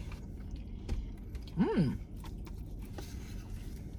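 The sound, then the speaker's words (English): Chewing and eating potato salad at a mukbang meal, moist, steady mastication with soft smacking, fairly close and continuous, broken midway by a brief voiced hum. “Let me try potato salad”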